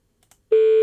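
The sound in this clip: Telephone tone after dialling a number: two faint clicks, then a loud, steady, unbroken tone with rich harmonics starts about halfway through and holds to the end.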